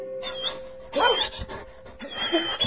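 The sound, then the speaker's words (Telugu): A puppy plays on the front lawn of a house, giving a few short, high, squeaky yips and whimpers in separate bursts, fairly faint and with no talk. “Praveen తన కుక్క పిల్ల జాలీతో వాళ్ళ ఇంటి ముందు లాన్లో ఆడుకుంటున్నాడు.”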